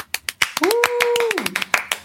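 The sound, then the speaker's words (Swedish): A small group claps in sparse, uneven bursts, and a sustained voice or whoop rises above the claps in the middle. “Gud, en applåd. Härligt. Ja, vi kör en applåd.”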